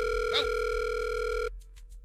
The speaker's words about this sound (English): the computer has drawn a name, and we're going to dial a number here.